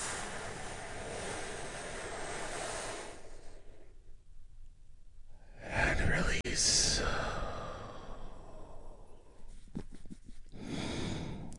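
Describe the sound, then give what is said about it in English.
A big, deep breath taken during a guided relaxation: one loud, airy rush of breath lasting about a second, with quieter, softer speech before and after it. “Take a big, deep, healing breath with me right now.”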